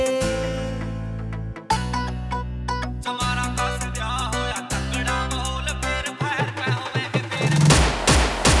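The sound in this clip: Celebratory gunfire at a festive gathering crackles in rapid, ragged bursts near the end, after a loud, rhythmic music track with heavy repeated bass stabs.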